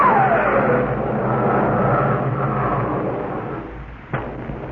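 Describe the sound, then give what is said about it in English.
A huge cylindrical spaceship launches straight up, luminous gas boiling from its stern in a loud, sustained roar that opens with a falling whistle, eases off slightly, then ends with a sharp bang. “From the stern of the spaceship, a luminous gas seemed to boil out in whirls of furious flashes. The restraining rods were cast off, and the huge cylinder shot straight up into the air with a precision.”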